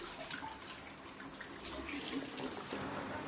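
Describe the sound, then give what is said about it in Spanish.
Water runs through a garden hose and spills onto soil in a steady, soft rushing hiss with faint splashing, quiet and unbroken throughout. “El agua recorre la manguera y cae a la tierra.”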